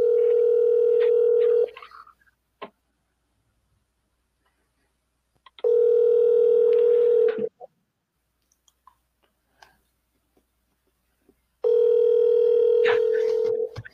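Ringback tone of a telephone call going unanswered: three long, steady mid-pitched rings, each lasting about two seconds, separated by quiet gaps that hold a few faint clicks.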